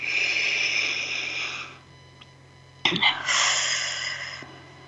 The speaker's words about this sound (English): So let's take a breath together.